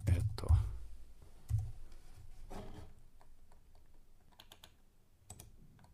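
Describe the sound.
Typing a word on a computer keyboard: quiet, irregular clicking keystrokes with a few louder thumps near the start, then softer taps trailing off.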